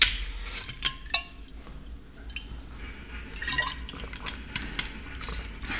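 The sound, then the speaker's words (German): Water pours for a drink: a faint, steady trickle and splash with a couple of light clinks near the start, quiet and with no talk. “Und ich muss mal einen Schluck Wasser nehmen.”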